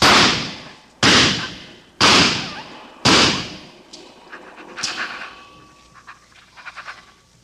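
Four loud gunshots in a 1949 radio drama, evenly spaced about a second apart, each a sharp crack with a quick decay, followed by softer scattered thumps and rustling.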